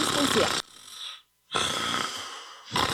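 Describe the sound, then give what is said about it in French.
A person snoring: a few loud, rasping breaths, each separated by a quiet pause, with one short, complete silence between them. “Hey, réveille-toi, tu ronfles encore! Vos nuits ressemblent à ça?”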